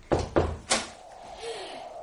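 A door being opened in an Arabic historical radio drama: three sharp knocks or thuds in quick succession, then a softer lingering sound that trails off.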